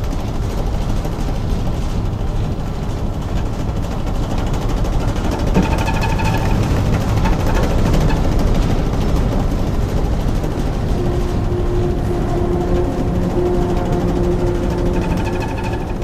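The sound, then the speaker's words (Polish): A ship's bow side thrusters turn the vessel in place, making a loud, continuous mechanical rumble with an engine-like throbbing drone. The noise stays steady for the whole stretch, and no voices are heard over it. “to są boczne takie pędniki, które pozwalają nam na obrót w miejscu lub płynięcie na przykład bokiem. Co widać? I będziemy się obracać.”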